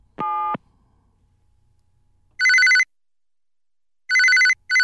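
A telephone rings over and over from a caller who keeps dialing a wrong number: one brief tone, then a repeated pattern of loud, bright, shrill ring bursts separated by silence.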